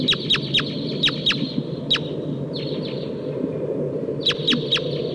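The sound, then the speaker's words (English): Wild red crossbills of the Sitkensis type call with sharp, high, clipped chip notes in quick bursts, a cluster early and another near the end, over a steady low rumbling background noise. “I hear wild crossbills here. It sounds like a Sitkensis type.”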